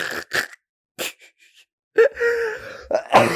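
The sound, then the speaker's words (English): A laugh that breaks into a cough. Short breathy bursts come first, then a drawn-out voiced stretch, ending in rough, harsh bursts. “that laugh turned into a cough”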